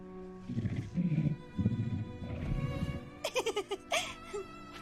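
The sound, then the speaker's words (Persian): A tiger roars and growls in a few low, rough bursts, followed by a quick string of short, higher pulsing sounds. “هی از اون ببر فاصله بگیر.”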